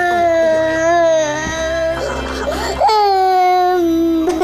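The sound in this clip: A young girl cries in long, wavering, high-pitched wails, broken midway by a rougher, choked sobbing burst before the wailing resumes, loud and sustained.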